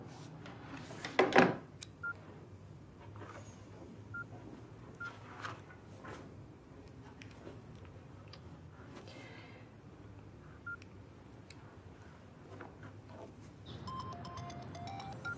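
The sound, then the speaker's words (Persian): Faint telephone keypad tones as a phone is dialled to make a call: scattered short, soft beeps among quiet handling clicks, with one louder clatter early on. “بله من الان باشون تماس میگیرم.”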